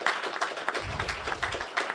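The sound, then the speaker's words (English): An audience applauds a guest: a loose, moderately faint patter of many hands clapping, uneven in rhythm and continuing throughout. “So let's have a good round of applause for Mr.”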